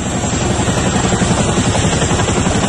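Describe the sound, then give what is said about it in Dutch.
Military air force helicopters fly early in the morning in the Rotterdam region during an anti-terror exercise that simulates a hostage-taking. Their rotors make a loud, continuous roar with a fast, steady chopping beat. “Ja, het is het geluid van helikopters die meededen aan een militaire oefening.”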